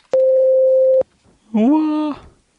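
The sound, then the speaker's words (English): A voicemail beep before a message is left: one steady, mid-pitched electronic tone that holds for nearly a second and cuts off cleanly. A short voiced sound follows after a brief pause. “The person you're trying to reach is not here at the moment. Not here. Please leave you a message after the tone.”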